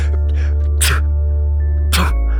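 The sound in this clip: Two short explosive sneeze or cough bursts from someone with allergies, spaced about a second apart, rising sharply over a steady tonal background.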